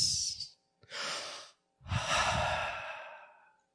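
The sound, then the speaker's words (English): Deep breaths taken while leading a group to relax before a test: three airy breathing sounds, a short one, then a longer draw, then a long exhale that slowly fades, with no talking over them. “Relax. Everybody take a deep breath.”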